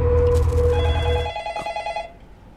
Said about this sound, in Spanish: Justamente estás platicando cuando entra una llamada.